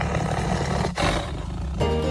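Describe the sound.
A tiger growls and roars in a deep, rough, loud sustained rumble that breaks briefly partway through and then resumes.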